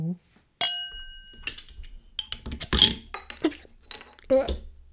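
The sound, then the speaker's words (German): A beer bottle is opened at a tasting. Glassy clinks and clatter come and go, with a sharp burst of noise midway as the cap comes off, followed by more light clinking. “Und deswegen öffnen wir jetzt mal diese Flasche.”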